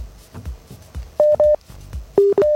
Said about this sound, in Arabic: ألو ماكو، انقطع الاتصال